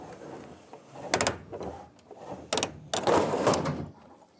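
A hand crank raising a freestanding mobile bathroom trailer, unhitched from the tow coupling: a few irregular bursts of rattling, ratcheting metal, some sharp and some longer, separated by brief pauses.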